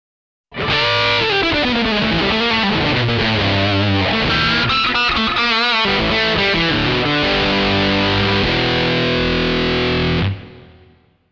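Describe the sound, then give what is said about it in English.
Electric guitar through a DS2 Turbo Distortion effect pedal, loud fuzzy distorted notes and chords played as a riff, ending on a sustained chord that cuts off and rings out briefly. “DS2 Turbo Distortion.”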